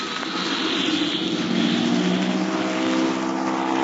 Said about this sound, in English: They're gonna have a mighty tough time to make a quick takeoff to clear those trees.